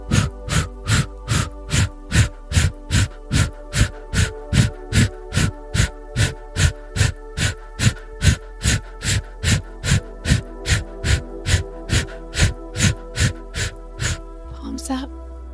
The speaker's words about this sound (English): take a big inhale through your nose and then press it out.